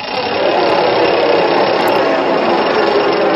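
A wheel spins noisily with a loud, steady whirring roar that holds an even level throughout, with no distinct ticks or clicks standing out.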